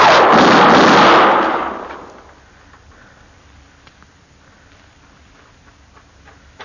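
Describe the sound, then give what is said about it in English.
A single loud gunshot fired from an alley, a sharp blast whose rumbling tail fades over about a second into a quiet background with a few faint ticks. “He's in that alley, Mr. Dillon. I seen his gun flash.”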